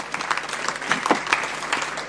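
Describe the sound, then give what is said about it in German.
Audience applause after a panel discussion at a live talk event, a steady patter of clapping hands at moderate loudness with a few sharper claps standing out, no voices over it. “Ja, dann Applaus für Sie.”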